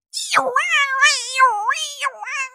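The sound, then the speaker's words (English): A voice imitating a dial-up modem connecting over a phone line, a warbling run of screechy, cat-like squeals that swoop up and down in pitch for about two seconds without any talk. “you remember you had to plug in your fucking computer into the phone line and it's like, and it sounds like a cat in a dryer.”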